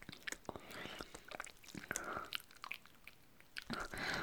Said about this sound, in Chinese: 不要，人家才不要停呢，人家现在正在吃得过瘾呢。